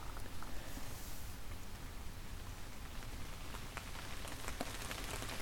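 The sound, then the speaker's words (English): Steady rain falls outdoors on an old closed road, a dense, continuous patter with even loudness throughout and no voices. “here comes the rain.”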